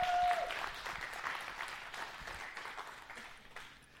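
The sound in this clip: An audience breaks into applause, a faint, dense patter of many hands that starts strongest and gradually tapers off.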